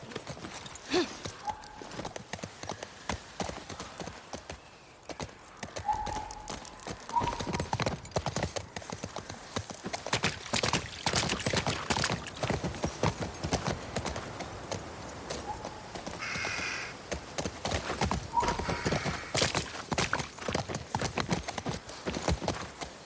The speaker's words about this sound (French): Un petit peu de galop, ça te dit ?